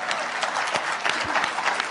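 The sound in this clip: A conservative audience claps during a political talk: a steady, fairly soft wash of many hands applauding, with a few louder individual claps standing out.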